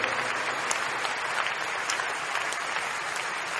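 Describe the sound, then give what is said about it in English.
A church audience claps steadily and densely, a continuous even wash of hand claps with no pauses. “Thank you, Father. Keep clapping, keep clapping, keep clapping.”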